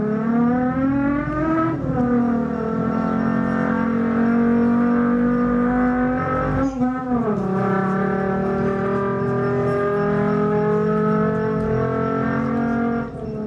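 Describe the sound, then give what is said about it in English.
Lamborghini sports car engine giving a loud, sustained harmonic roar, with the pitch shifting abruptly twice as the revs change, then holding steady. “Now, to be really specific, the first sound is the sound of a Lamborghini. Sport car, yes?”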